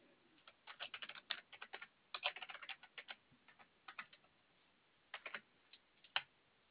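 Faint typing on a computer keyboard as a number is entered, with many quick, light key clicks in irregular bursts separated by short pauses, heard alone.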